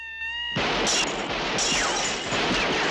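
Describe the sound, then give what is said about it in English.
Gunfire in a shootout as people fire from the windows of a house at police arriving in the driveway. A short sustained tone opens, then rapid bursts of shots crackle over dense, loud noise. “They shoot from the windows as the cops pile out.”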